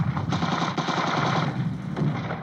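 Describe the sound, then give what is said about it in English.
An enemy 20-millimeter machine gun fires on wartime boats crossing a river, in a loud, rapid, continuous rattle of heavy shots with no break over a couple of seconds. “Unfortunately, an enemy 20-millimeter machine gun opened fire.”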